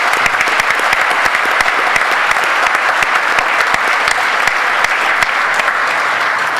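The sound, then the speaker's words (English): A church audience applauds to welcome a guest pastor: sustained, even clapping from many hands, bright and dense, continuing steadily without voices. “So let's give him a warm East White Oak welcome this morning.”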